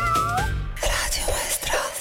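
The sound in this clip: A cat gives a short, high, wavering meow at the start, followed by a voice talking.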